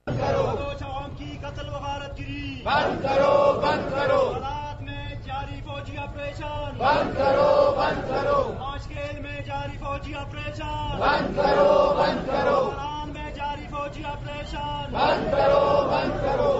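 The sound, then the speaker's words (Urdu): BNP protesters chanting slogans outside the Quetta Press Club: loud massed shouts recur in a steady rhythm roughly every four seconds, with quieter stretches of voices in between. “یہ مظاہرہ Quetta press club کے باہر ہوا جس میں party کے رہنماؤں اور کارکنوں نے شرکت کی۔ مظاہرے کے شرکا نے اس موقع پر یہ نعرے لگائے،”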